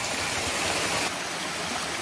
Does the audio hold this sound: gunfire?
no